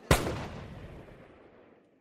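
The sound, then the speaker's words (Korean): A single sharp gunshot from a scene in the film The Age of Shadows, fired at Gyeongseong Station amid a police encirclement, with a loud crack followed by a long, slowly fading rumbling tail. “그때 흩어지는 사람들 사이에서 연계순이 꼿꼿이 선 채 총을 쏜다.”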